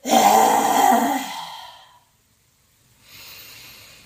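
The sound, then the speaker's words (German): A forceful open-mouthed exhale with the tongue stuck out, as in yoga lion's breath: one loud, breathy, rushing blast that fades out, then after a short silence a softer, quieter breath. “Und atme dann kraftvoll dabei aus. So wie wenn ein Löwe laut brüllen würde. Einatmen, Mund öffnen, Zunge raus”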